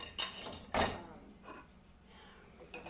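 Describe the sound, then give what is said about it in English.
Dishes and cutlery clink and clatter while bowls, forks and plates are cleaned in a kitchen: a few sharp, bright knocks spaced across a quiet background. “This is probably very annoying to listen to. I don't know what I'm talking about. I'm just trying to clean my kitchen.”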